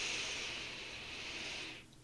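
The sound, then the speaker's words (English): A single slow breath drawn in through the nose: a soft, steady airy hiss that holds for nearly two seconds and then stops abruptly, heard alone and quietly. “take one breath in through your nose,”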